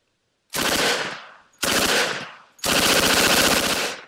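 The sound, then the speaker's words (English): Loud Thompson submachine gun fire in three sustained automatic bursts, the first two about a second each and the last one longer, each a rapid, hard rattle of shots with brief silence between. “Do the Thompson submachine gun if you've got it.”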